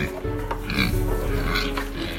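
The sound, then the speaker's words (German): Herd of pigs grunting: many overlapping low grunts and snorts form a loud, dense, continuous chorus throughout. “da hinten, da kommen Leute mit einer ganzen Herde Schweine angelaufen”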